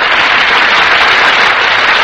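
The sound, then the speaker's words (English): Studio audience applause as the stars of a radio play enter from the wings: dense, loud, even clapping that holds steady for about two seconds without a break. “That applause, ladies and gentlemen, is for our stars who have just entered from the wings.”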